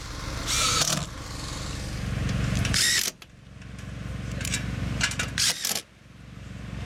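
A power drill drives screws into a build meant for winter, giving a few loud whirring bursts with short pauses between them and a low mechanical hum underneath.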